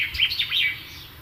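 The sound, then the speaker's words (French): A bird calling outdoors: a few quick, high-pitched, warbling chirps over a faint background hush. “et un oiseau”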